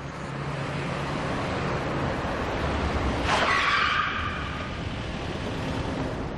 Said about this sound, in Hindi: क्या कर रहे हो, कैसे गाड़ी चला रहे हो? हटाओ गाड़ी यहां से।